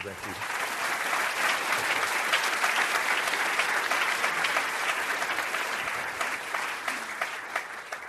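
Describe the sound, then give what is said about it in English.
An audience gives sustained applause to welcome speaker Richard Florida, a thick, steady roar of many hands clapping that holds for about eight seconds before easing slightly at the end. “Please welcome me, join me in welcoming Richard Florida.”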